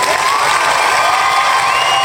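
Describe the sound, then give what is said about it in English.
Applause and cheering from a crowd, a steady, loud, dense wash of clapping and voices that holds evenly from start to finish. “Give a round of applause for that.”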